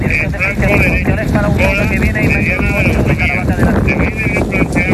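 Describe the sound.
Strong wind during a wildfire on dry terrain, a continuous loud roar buffeting the microphone, with a faint wavering high whine running through it.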